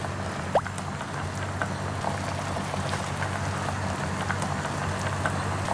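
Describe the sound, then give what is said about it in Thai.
A pot of liquid boiling for cooking at a gentle rather than rolling boil: steady, faint bubbling and soft hiss with scattered small pops, continuous throughout. “นี่เดือดไม่ต้องเดือดจัดนะคะ”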